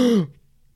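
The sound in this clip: A human voice imitates a video-game character holding its breath while crouched down, making a single short, throaty gulp that drops in pitch and cuts off after about a quarter second, leaving near silence.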